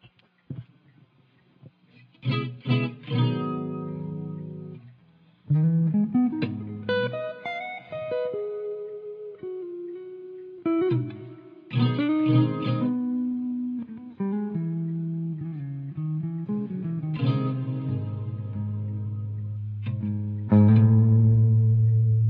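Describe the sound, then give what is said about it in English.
Reverb audio effect on a run of sustained, pitched musical notes, each ringing out and blending into the next, with a few louder attacks spaced through the passage and no voices. “Reverb.”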